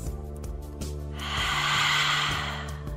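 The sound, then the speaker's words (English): An open-mouth exhale during yoga breathing practice: a long, breathy rush that swells and then fades, with steady tonal music humming underneath. “use it here to juice up your breath. Take an open mouth exhale.”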